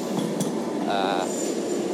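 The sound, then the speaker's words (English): A passing train gives a steady, loud rumble with metallic clinks and rattling wheel noise, and a thin high whine enters partway through. “I hope you can hear this as the train goes past and a drill starts.”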